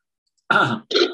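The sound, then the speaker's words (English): Throat clearing: two short, rough, gravelly bursts in quick succession, the first longer than the second, fairly loud and alone with no talk. “Unless somebody was clearing their throat and wanted to say something.”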